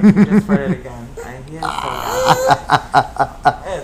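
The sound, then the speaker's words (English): Burping mixed with yawning, short voiced gurgling pulses that come in quick rhythmic runs, alongside grunting and laughter-like sounds. “Oh, they're yawning and burping at the same time.”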